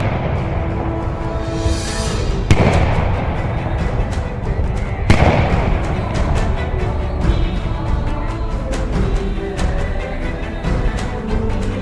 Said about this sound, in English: Secretary Stanton has ordered a salute of 200 guns to be fired from every arsenal, fort, and military headquarters in the United States in celebration of the event.